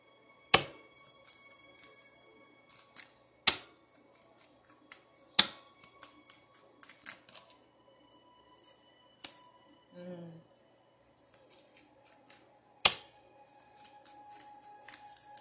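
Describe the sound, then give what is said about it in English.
Crisp card-handling sounds as a face-up card is pulled from a deck: a few sharp snapping clicks stand out among soft, rustling shuffles and light taps, fairly quiet overall. “There's a card that's flipped over. I'm pulling that out.”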